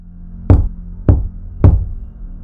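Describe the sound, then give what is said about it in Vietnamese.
Three knocks by hand on a rough wooden surface, dull and evenly spaced, each with a short low thud, heard alone in quiet. “Cô hít sâu, lấy can đảm gõ tay lên mặt gỗ sần sùi.”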